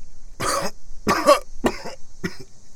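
A man coughs four times in harsh, ragged bursts, lying in mud after a shell blast left him dazed. The first two coughs are loudest and fullest, the last two shorter and thinner, with brief quiet gaps between them.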